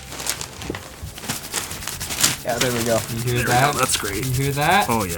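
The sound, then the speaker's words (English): Dry pumpkin lids rubbed hard together by several people make scratchy, squeaking friction bursts, while people talk over the rubbing. “That's the sound of pumpkin lids being rubbed aggressively.”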